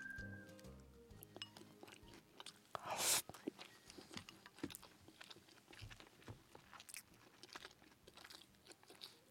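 Someone chews simmered hard-clam tsukudani, large clams cooked down to about the size of big short-neck clams. Faint, moist clicks and chewing run throughout, with one louder crunchy bite early on.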